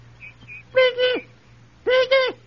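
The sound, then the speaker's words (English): Shrill calls of a kibitz (lapwing), a small bird, arrive as two loud pairs of high, harmonic notes, each pair ending in a brief downward slide, after two faint short chirps. “The kibitz is a small bird found in this part of the country that makes a shrill, annoying sound like this.”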